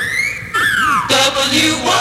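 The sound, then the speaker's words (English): A whistle jingle marks the time on an FM radio station: whistled tones glide downward, then further whistled notes follow, bright and clear over a faint low hum. “At the whistle, it's 10:30.”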